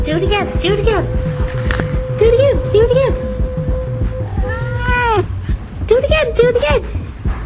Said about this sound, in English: He's a good cat, that's for sure. Oh, he's following me. He's going to do it again. Do it again, Fairy